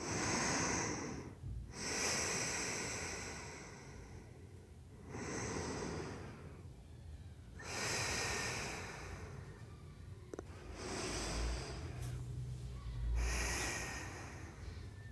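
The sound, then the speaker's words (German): Deep, slow breaths taken during a guided relaxation exercise: several long, airy inhales and exhales in a steady, unhurried rhythm, with no talking. “Nimm hierfür nochmal 3 tiefe Atemzüge.”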